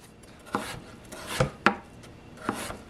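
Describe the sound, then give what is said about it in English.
Chef knife from an Okingjoy Dynasty set chopping with a rocking motion: four soft cutting strokes, two coming close together midway, each a brief scrape ending in a light tap. “Well, let's get some of the rocking motion with the chef knife. But just for fun, I'll do the thin cut at first. And yeah, just as easy as the utility knife. But yeah, let's do the kind of rocking motion.”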